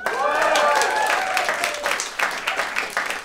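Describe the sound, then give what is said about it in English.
Light, scattered golf claps from a debate audience, a thin patter of soft hand claps that follows a voice at the start and trails off into a few sparse claps. “Golf claps. You got a few.”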